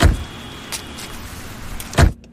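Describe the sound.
A car stops with its engine humming low and steady under a few dull thumps, the last one loudest before the sound cuts off into near silence.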